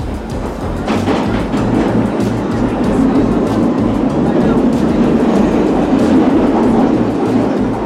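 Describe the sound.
A train rolls past near a railway station in Granada, loud and steady, with a rhythmic low clickety-clack of wheels over rail joints repeating throughout beneath a broad rumbling hiss.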